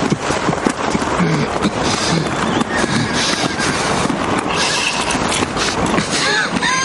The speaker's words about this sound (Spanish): Los oficiales que montan a caballo se separan del grupo.